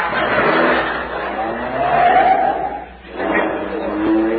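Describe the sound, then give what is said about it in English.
A Town and Country car drives up a parking garage ramp, its engine a steady rumbling roar with a brief squeal of tires midway, dipping for a moment before surging again. “Okay, I'll put it on the top floor of the garage. Careful going up that ramp. I've waited a long time for that car.”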